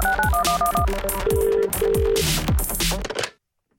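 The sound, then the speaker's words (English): The Motorola "Hello Moto" ringtone from old flip phones plays as a bright synthetic melody of short, high tones over punchy low beats. It runs loud for about three seconds, then cuts off abruptly into silence. “That was like a ringtone back on the flip phone days.”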